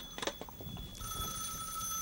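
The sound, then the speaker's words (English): A telephone bell starts ringing after about a second of muffled rustling, then holds one steady, high metallic ring to the end. The ring is fairly faint. “There's our quick service. Good. I'll get the phone.”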